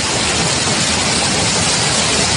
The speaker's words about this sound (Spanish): Este es el sonido de un arroyo en plena Sierra Morena sevillana, en concreto en el municipio de San Nicolás del Puerto.